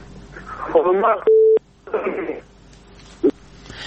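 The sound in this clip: A telephone tone sounds as a phone call is cut off. A single steady electronic beep falls between bursts of garbled voices on the line, and a short blip of tone follows later.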